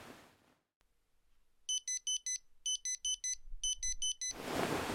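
A digital thermometer beeps after taking the temperature of someone with a high fever: three quick groups of four shrill, evenly spaced electronic beeps, with soft rustling before and after.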